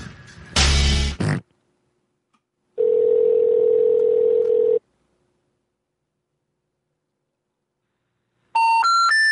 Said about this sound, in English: So let's give them a call.